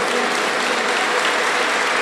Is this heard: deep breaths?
no